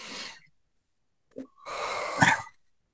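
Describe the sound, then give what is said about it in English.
A deep breath drawn and let out, beginning with a brief airy rush, then a silent pause and a small catch, followed by a longer, fuller breath of moderate loudness with no talk. “Okay, so just take a deep breath.”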